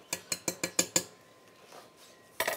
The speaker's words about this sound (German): Das fängt jetzt hier an zu köcheln. Jetzt fische ich den Salbei hier mal kurz wieder raus.